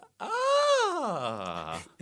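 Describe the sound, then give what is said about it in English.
A vocal noise of someone pretending to be happy about unwelcome news or a disliked present: a single drawn-out, moan-like hum that arches slightly upward, then slides down in pitch over nearly two seconds, heard alone. “It's the noise of someone pretending to be happy.”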